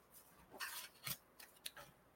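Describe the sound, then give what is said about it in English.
Card pulled from a deck during a psychic card reading: a few soft, papery swishes and light snaps of card handling, faint and irregularly spaced, with no talk. “Let me pull a card for you, dear.”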